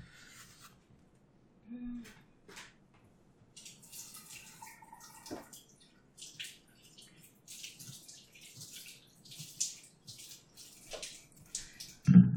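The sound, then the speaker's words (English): Cherry tomatoes are rinsed under running water, faint intermittent splashing and rubbing with quiet gaps between, and a sharper thump at the very end. “I'm keeping three of them out and I'll just wash the rest.”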